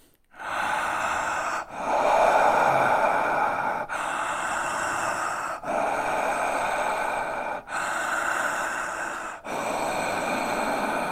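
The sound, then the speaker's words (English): Conscious connected breathing through the mouth, loud and continuous, with deep breaths flowing into one another in a steady rhythm of roughly two seconds per cycle and almost no pause between them. “what happens with the conscious connected breath, and we breathe it through the mouth. And so it sounds a bit like this.”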